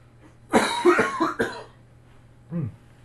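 Coughing after choking while gargling: a quick cluster of harsh, loud coughs, then a short pause and one more cough.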